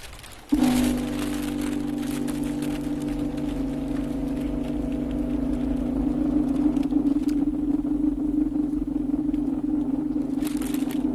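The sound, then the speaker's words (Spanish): A potter's wheel turns clay during pottery making. A steady, low, motor-like hum starts abruptly and runs unbroken to the end, with a faint crackling, pattering texture over it. “hemos hablado de algo artesano, de un torno que da vueltas, el barro, en fin, era el sonido, es así es como suena la alfarería”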